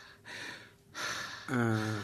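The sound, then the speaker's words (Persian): Deep breaths drawn by a patient during a doctor's examination: breathy rushes of air in and out, separated by a short pause, ending with a brief voiced sound. “تو بیرون تپلن کو و نفسای عمیق عمیق بکش. خوب برو نفس یک کم دیگه عمیق‌تر.”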